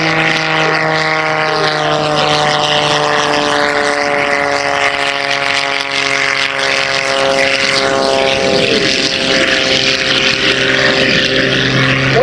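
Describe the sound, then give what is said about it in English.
Propeller engine of an aerobatic airplane snap rolling at an air show: a loud, continuous droning hum with strong steady tonal harmonics, its pitch wavering slightly midway, heard alone without voices. “As he snap rolls that airplane out there off of air show.”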